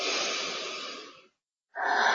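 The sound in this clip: Slow, deep breathing through the nose. One long, airy breath fades out, a short moment of silence follows, then another breath starts strongly.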